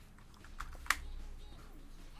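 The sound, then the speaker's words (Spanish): Fingers tap on a mobile phone's touchscreen keyboard, producing a few faint, soft clicks. One sharper tap stands out over a low background hum. “Sí, pero me da huevo escribir en teclado de celular.”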